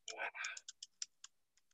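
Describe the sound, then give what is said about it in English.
Faint typing on a computer keyboard in the United Kingdom: a quick, dense cluster of clacks, then a few sparse, separate key clicks spaced unevenly. “That's typing on your computer in the United Kingdom.”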